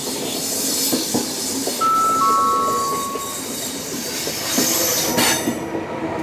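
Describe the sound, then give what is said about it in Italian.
A regional train from La Spezia Centrale to Levanto pulls into platform 2 at the seaside station of Manarola. A steady rolling rumble of wheels runs throughout, with two thin, high wheel squeals near the middle and a few light metallic clinks. “22930 di Trenitalia, proveniente dalla Spezia Centrale e diretto a Levanto delle ore 15.06, è in arrivo al binario 2. Attenzione, allontanarsi dalla linea gialla.”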